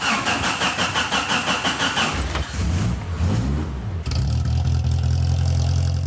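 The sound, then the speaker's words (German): A vintage replica Mercedes Gazelle, hand-built in Gaza, starts: the engine turns over and catches, then settles into a steady, loud low running drone as the car drives off. “Der Oldtimer springt sofort an und fährt, was in Gaza jedes Mal Stadtgespräch ist.”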